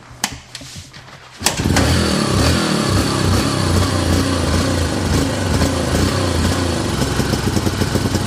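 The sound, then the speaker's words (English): An engine revving at half throttle while its idle is being adjusted. After a few brief clicks it catches abruptly, then holds a loud, raspy, steady drone with slight fluctuations. “Give me a half throttle”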